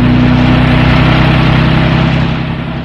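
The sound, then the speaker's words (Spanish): Car engine accelerating onto an asphalt road: a loud, dense rumbling roar with a steady low hum throughout, easing slightly in level near the end. “Greta Gary respira, tranquilizándose al tiempo que el árabe hunde el acelerador, proyectando el vehículo en la cinta asfáltica.”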